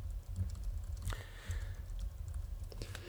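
Keys tapped on a computer keyboard while messages are typed, heard as soft, irregular keystrokes over a low steady hum.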